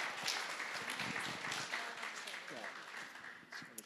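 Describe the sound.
Audience applause welcomes two guests, a pastor among them, at a gathering in Quebec: many sharp hand claps blend into a lively patter that slowly tapers off over a few seconds, with voices talking alongside.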